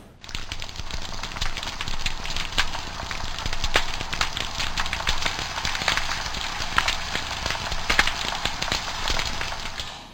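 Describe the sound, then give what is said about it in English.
Snapping shrimp crackle underwater in a dense, continuous popping and clicking, like frying fat or popcorn, steady in loudness throughout. “So for example, you have sound from snapping shrimp. So snapping shrimp is what you see featured to the top here, and they sound like this.”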